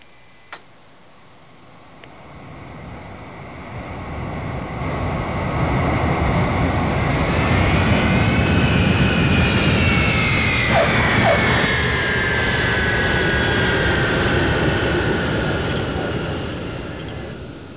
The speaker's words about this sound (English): Eastern Flight 357, you're cleared to land.